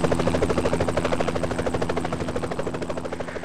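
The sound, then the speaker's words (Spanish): Helicopter rotor chopping in a fast, steady rhythm of many even pulses over a low engine hum. It stays loud and continuous throughout, with no voices. “No sé si ha sido el gorrocóptero o un... helicóptero de Vietnam.”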